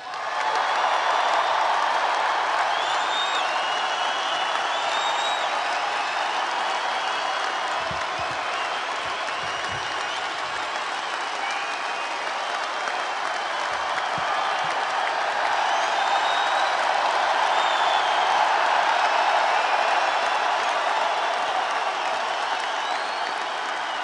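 A crowd applauds to welcome back hockey great Jaromir Jagr at a sports radio show event, with long, sustained clapping mixed with general crowd noise that stays at an even level throughout.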